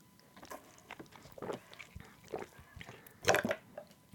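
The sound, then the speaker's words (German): Someone takes a quick sip of a drink. Soft, wet mouth and swallowing noises come in a few faint bursts, with one louder gulp near the end. “Aber ich trinke kurz nebenbei einen Schluck.”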